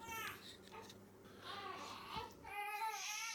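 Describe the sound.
A toddler babbling at home during the Shanghai lockdown: soft, high-pitched baby chatter and little vocal sounds, faint and continuous.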